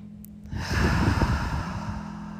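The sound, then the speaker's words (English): A deep breath taken in through the nose and released through the mouth: one long, airy breath swells and then slowly fades away, over a faint steady low hum. “let's all take a full inhale through the nose, open mouth, gently exhale.”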